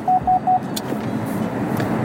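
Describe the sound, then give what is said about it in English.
A car's lane departure warning beeps three times, short, evenly spaced mid-pitched tones in quick succession, followed by the steady hum of road and engine noise inside the moving car. “sorry for the beeps, that's my lane changer beeping, saying, hey, you're drifting, which I'm really not”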